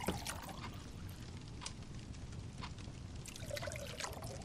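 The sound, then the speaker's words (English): A drink pours from a small silver jug into a glass, making a soft, steady trickle of liquid that runs for the whole stretch at low volume, with a few brief splashy accents along the way. “you notice a small silver jug floating around the table as it magically pours everyone's favorite drink into their glass.”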